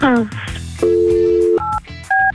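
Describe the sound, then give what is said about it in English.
A telephone is dialed with touch-tone beeps after a voice speaks. One long steady tone is followed by two short ones, with brief talk between them. “Let's get Mike on the phone.”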